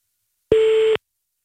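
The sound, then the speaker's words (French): A single steady telephone tone sounds while a call is being placed, a clear mid-pitched beep lasting about half a second, alone with no other sound. “D'accord, on va essayer d'appeler Ghislaine. Tu veux lui parler? Ah oui. Vas-y. On appelle Ghislaine.”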